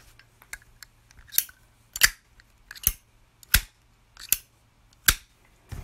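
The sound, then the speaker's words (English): Crisp metallic clacks of a Zippo lighter lid snapping open and shut repeat in a steady series at a fairly even pace, each a bright, sharp click standing alone against near silence. “That was the iconic sound of the Zippo lighter opening and closing.”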